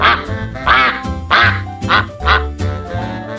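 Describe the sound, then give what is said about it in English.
Duck quacking: a quick run of several loud, harsh, nasal quacks in uneven rhythm, with short gaps between calls and no other sound. “Duck.”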